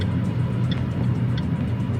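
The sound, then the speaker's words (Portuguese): Road traffic heard from inside a car held up in a jam on Avenida do Aeroporto: a steady, low engine and road rumble with a couple of faint ticks, and no voices. “Avenida do Aeroporto, no sentido Papicu, já com o trânsito travado. Gravei esse vídeo aí com o aparelho fixado no suporte do meu veículo.”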